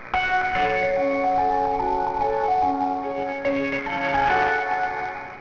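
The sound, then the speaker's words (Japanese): Electronic train station departure melody based on a folk song about a god of fortune: a bright chiming tune of sustained bell-like notes that plays continuously and evenly, with no talking. “二宮駅の発車メロディーは大黒様。”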